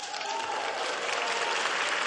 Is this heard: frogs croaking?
no